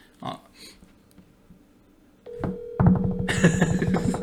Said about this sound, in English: He's not gonna pick up. He's not. Damn.